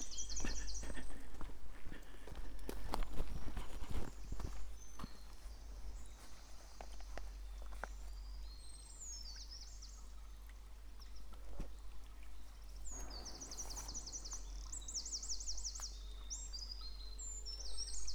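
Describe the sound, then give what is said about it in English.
Footsteps through woods beside a stream running in a sandstone gully, with steady flowing water under irregular crunching steps and bursts of bird chirping at intervals. “Walking next to a sandstone gully with a stream running through the woods.”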